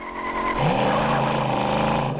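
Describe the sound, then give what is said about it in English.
A black sedan's engine roars as the car speeds away, burning rubber. The loud, steady engine note climbs in pitch as it accelerates, then holds strong to the end. “Burning rubber, the black sedan roars away.”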